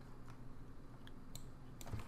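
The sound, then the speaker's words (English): Faint, sparse keyboard clicks as someone types a trading card's name into a computer search, a few light taps over a low steady hiss. “Let's just type it in.”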